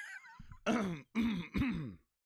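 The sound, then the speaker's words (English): A person coughing in three harsh, throaty bursts in quick succession, fairly loud and alone with no talk over them, after a faint rustle. “that cough was inconvenient for you, the listener. I apologize.”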